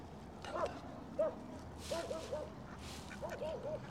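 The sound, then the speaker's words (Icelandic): A dog gives faint, high, whining yips in short bursts, some coming in quick runs of three, over a low background hiss. “Þessi hundur.”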